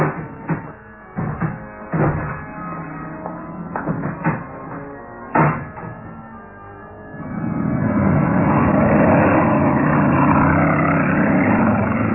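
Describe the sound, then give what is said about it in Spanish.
A fast car driving off: a few clicks and knocks at first, then an engine roar swells up and holds loud and steady for the final several seconds. “El veloz auto partió, cruzando a un lado de aquel letrero amenazante.”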